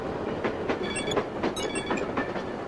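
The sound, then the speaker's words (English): A moving train runs on its rails with a steady rumble and regular, repeated clickety-clack beats from the wheels over the track joints. “On the train, Luke stands bare-chested between cars to cool down.”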